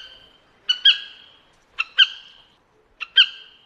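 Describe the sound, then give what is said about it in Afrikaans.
A pair of black sparrowhawks calls during the breeding season: three spaced bouts of high, sharp calls, each a short note followed by a louder, longer one, with quiet gaps between. “Volwasse swartsperwers is meeste van die tyd stil, behalwe in die broeityd. Die mannetjie gee 'n roep as hy op pad is na die nes toe met kos, waarop die wyfie dan antwoord, en dit klink so.”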